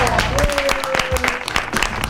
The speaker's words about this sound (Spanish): Es Zona Sarasa, el aplauso. Bravo.